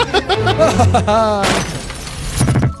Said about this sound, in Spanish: Y el pendejo rompe una ventana y se va.